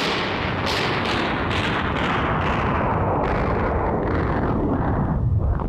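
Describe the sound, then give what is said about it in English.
A battle shooting sound effect for a war scene in a comedy sketch: continuous loud gunfire and blasts with many sharp bursts over a heavy rumble, then an abrupt cut at the end. “Stop all that dreadful shooting, old man! All right, wait a minute. Let me kill the sound effect here.”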